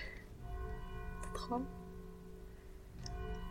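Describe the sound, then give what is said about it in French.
A church bell rings, heard from inside the church, as a faint, steady hum of overlapping sustained tones that carries through the whole stretch. “voilà l'église qui sonne. De l'intérieur cette fois.”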